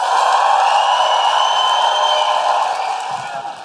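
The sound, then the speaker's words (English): Audience cheering and whooping to welcome an opera singer at the Coliseum: a loud, sustained roar of crowd voices with a steady high edge, holding level before easing slightly at the end. “Please put your hands together and make an enormous Guilty Feminist woo-hooing operatic welcome for Nadine Benjamin!”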